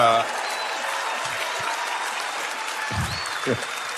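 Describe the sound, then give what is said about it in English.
Applause from an audience, a steady spell of clapping lasting about four seconds, with some voices over it. “By the way, give this man applause.”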